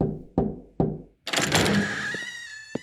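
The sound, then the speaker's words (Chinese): Knuckles knock on an office door in a school basement: a few sharp, hollow raps in a steady rhythm. A longer rustling, noisy sound with a thin creaking tone follows, then one brief thump at the end. “哈利敲门走进那间熟悉而讨厌的办公室”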